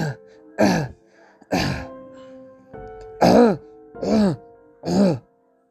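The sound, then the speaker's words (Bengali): A man who had been sleeping starts coughing, several harsh, throaty bursts with a groaning, voiced tone, unevenly spaced with short pauses between them. “কিছুক্ষণ পরে ঘরের একপাশে ঘুমিয়ে থাকা লোকটির কাশি শুরু হলো।”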